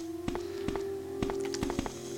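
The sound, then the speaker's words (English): Buttons are pressed to enter a passcode on a keypad panel in the video game Resident Evil: a few soft, separate taps sound over a steady low hum. “Put the passcodes in. A passcode panel. You've entered the passcode. You've entered the passcode. So all three are entered.”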